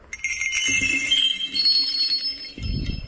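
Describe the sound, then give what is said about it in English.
Jingling sleigh bells played as a percussion instrument in a music recording, bright, high ringing tones that shimmer for a few seconds before a low thudding hit near the end. “Sleigh bells.”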